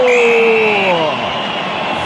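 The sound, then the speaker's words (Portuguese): São Paulo football supporters chant olé at the final whistle of a home win over Atlético Mineiro at Morumbi stadium. The massed voices are loud and sustained, and the pitch of the chant slides downward midway. “Torcida do São Paulo no ritmo de olé, quando apita pela última vez no jogo o árbitro.”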